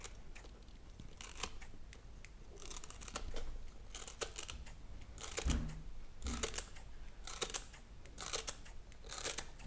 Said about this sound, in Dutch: Normaal knip ik tjak, tjak, tjak veel sneller